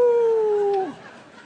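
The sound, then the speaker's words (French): A person imitates a wolf howl with a sustained hooting vocal tone. The tone drifts slowly downward, then drops off sharply and leaves a quieter trailing tail. “Moi, intérieurement, c'est comme les loups, ça veut dire « Ouhou ! Seigneur, retiens-moi ! Ouhou ! »”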